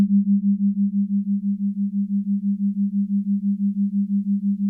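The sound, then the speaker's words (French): Two continuous pure tones a few hertz apart, one in each ear, merge into a single steady low hum with a rapid, regular beating wobble throughout, heard alone. “voici en même temps les deux sons continus, un pour chaque oreille.”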